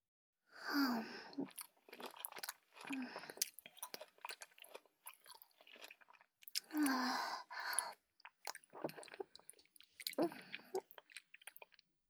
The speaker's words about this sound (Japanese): 好きって言われながら食べると、美味しく食べれる感じしない?あたしもいただくね。